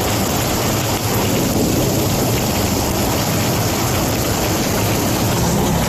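Heavy rain and thunderstorm in Spain's Murcia region under a yellow rain alert: a loud, dense, unbroken roar of rainfall with deep rumbling underneath, steady throughout with no pauses.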